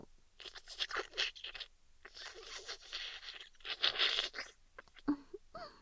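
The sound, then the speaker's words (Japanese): Slurping sips of tea, a few wet, airy draws coming in irregular bursts with short pauses between them, fairly quiet and with no talking. “こんな風にお茶をすする音”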